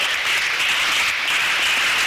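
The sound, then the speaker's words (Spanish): An audience applauds during a church service, a steady, dense wash of clapping that holds at an even loudness for the whole stretch with no voices rising above it. “Denle un aplauso al Señor en esta mañana.”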